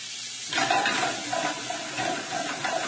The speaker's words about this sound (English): And now I'm gonna add the fresh, or the freshly diced pancetta.